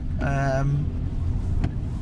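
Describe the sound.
Steady low engine and road rumble from a car driving into a built-up area, with a voice briefly talking over it near the start.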